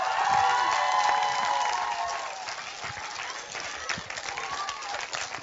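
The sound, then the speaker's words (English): A crowd at a film award event in Erfurt, Germany, cheers, claps and shouts, loud and dense at first, then easing into looser applause and scattered calls. “So make some noise for everybody in Europe so they can hear you.”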